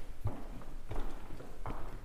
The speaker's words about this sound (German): Okay, dann gehen wir mal ein Stück weiter durch die Ausstellung.